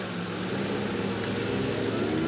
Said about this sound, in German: Dann fahre ich jetzt aber. Okay. Sei vorsichtig.